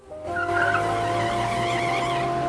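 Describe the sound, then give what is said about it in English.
A black Audi soft-top car drives off with a loud, steady engine drone and a tonal whine. The sound swells in quickly at the start and then holds without a break. “Lydia leaves Helen's flat and gets into a black Audi soft top. Helen, wearing a wistful expression, is still in the cab. Lydia drives off.”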